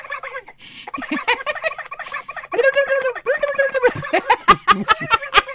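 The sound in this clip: A human voice imitates a turkey gobble in several bursts of rapid, warbling, throaty notes, with short gaps between them and sharper clucks toward the end.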